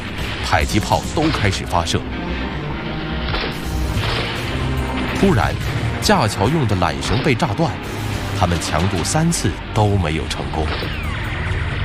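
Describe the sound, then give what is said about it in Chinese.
War sound effect of bullets and mortar fire, with dense, repeated cracks, booms and heavy thuds crashing throughout. A voice talks over the barrage. “将对面的敌人发现了红军的意图，子弹、迫击炮都开始发射。突然，架桥用的缆绳被炸断”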